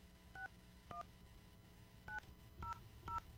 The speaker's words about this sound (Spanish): Que nos contesten la llamada. Estamos marcando.